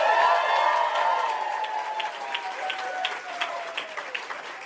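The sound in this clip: A live audience at Holly's Gourmet Cafe bursts into loud applause and cheering, with dense clapping and whooping voices that start strong and ease slightly while the clapping continues to the end.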